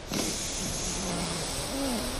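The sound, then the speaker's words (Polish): Air is pushed out through the right nostril during an alternate-nostril breathing exercise. It makes a steady, breathy hiss that lasts the whole moment with only slight swells and no speech over it. “Zatykamy lewe nozdrze, otwieramy prawe nozdrze i wypuszczamy powietrze przez prawą dziurkę nosa.”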